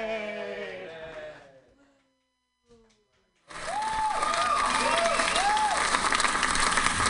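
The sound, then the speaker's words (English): Audience applause at a comedy show breaks out abruptly after a voice speaks and a short silence, then holds as loud, sustained clapping with a few whoops rising over it. “everybody clap it up for her”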